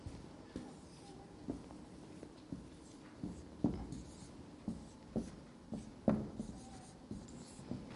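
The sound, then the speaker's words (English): Handwriting with a pen: a steady series of soft, scratchy strokes, faint and irregular in rhythm, with many short taps and scrapes. “let me write this down for the visual people”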